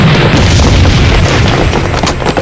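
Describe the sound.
Loud, dense blast of a time bomb exploding outside an auditorium: a sustained rumbling roar with crackling debris that fills the whole stretch without a break.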